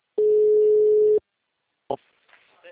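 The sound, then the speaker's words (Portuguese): A telephone busy signal plays as a single steady, even tone lasting about a second, followed by a sharp click and faint scattered noises. “O número está ocupado.”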